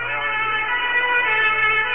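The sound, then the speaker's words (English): Ambulance siren sounds in London city traffic near the Old Bailey after 1973 bombings: a steady, high, piercing tone over low traffic rumble, continuous and fairly loud. “The ambulances are pulling in and leaving just as quickly as they can.”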